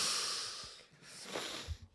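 Kratom powder is snorted up the nose as a hissy, breathy nasal inhale. It is fairly quiet and has no talk over it.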